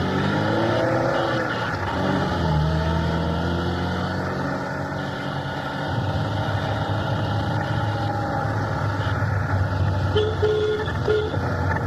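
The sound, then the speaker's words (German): Car engine running while driving with several passengers aboard, a steady low droning hum under continuous road rumble that holds evenly for the whole stretch without a break. “5 Minuten später saßen wir im Wagen nach Klock. 3 Beamte begleiteten uns.”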